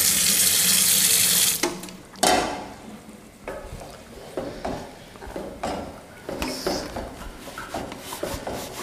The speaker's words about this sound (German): Stimmt, das muss man eben spülen.